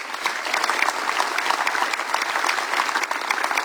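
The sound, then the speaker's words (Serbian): Dense, steady applause at a chanson festival thanks the organizers, with many hands clapping at an even, moderately loud level throughout. “Aplauzi za organizatore.”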